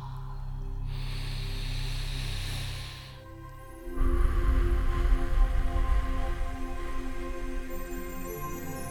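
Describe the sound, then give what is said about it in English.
A slow diaphragmatic breath: a long, soft, hissing inhale through the nose lasts about three seconds. After a short pause comes a louder, breathier exhale through the mouth, drawn out steadily to the end. “Listen to me take a diaphragmatic breath. I'm going to inhale slowly through my nose, drawing the breath into my diaphragm or lower stomach. Then I'm going to exhale slowly through my mouth.”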